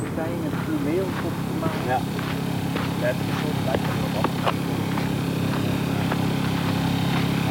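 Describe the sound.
A generator switched on to power lamps over a sheet for attracting insects runs as a steady low droning hum, continuous and even, under people talking.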